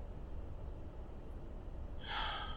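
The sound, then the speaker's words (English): A deep in-breath taken during a shoulder-relaxation posture exercise: a single short, breathy inhale near the end, rising out of a steady background hiss. “we take a deep in-breath and pump ourselves up a little bit, let the shoulders lift up,”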